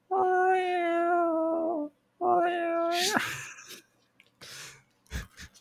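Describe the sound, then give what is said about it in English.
A human voice imitates a cat meowing with two long, drawn-out nasal meows, each sagging slightly in pitch at its end, followed by breathy, scratchy vocal noises. “just doing a little cat voice”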